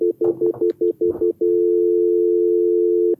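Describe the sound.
A telephone line signal sounds as a call-in caller comes on: a string of short, evenly spaced beeps with some faint noise over them, then one long steady tone that holds for almost two seconds.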